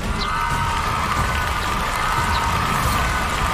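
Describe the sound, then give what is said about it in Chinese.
An audience cheers for a team during the scoring segment of a game show, a steady, even wash of cheers and shouts that holds a constant level from start to finish. “来，听到你们的欢呼声”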